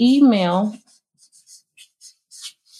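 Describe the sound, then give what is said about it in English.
Writing up a list: a short spoken phrase gives way to a few brief, scratchy strokes of a pen or marker, spaced irregularly and fairly faint, with near silence between them. “So let's write some up here. Let me write them real quick.”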